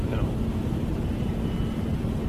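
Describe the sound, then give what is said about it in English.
A train going by outside a bungalow in Milford, Massachusetts: a steady, low, broad roar that stays even throughout, with no distinct clacks or horn. “Train going by.”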